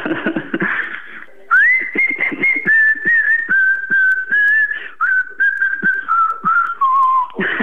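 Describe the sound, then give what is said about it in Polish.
A person whistles a tune in clear, loud, sustained notes that step gradually lower in pitch across the phrase, separated by short breaks, with some clicking noises before and after the melody. “Ja cały czas słyszę gwizdanie.”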